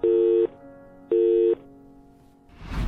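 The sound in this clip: A telephone call tone sounds as two short, steady mid-pitched beeps in quick succession, followed by a quiet line hum and then a swelling rush of noise.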